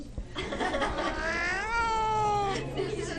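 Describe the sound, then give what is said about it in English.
An unhappy cat lets out a long, wavering, drawn-out meow that swells into a loud caterwaul before fading, over a steady background noise. “The cat's trying to crawl out the window.”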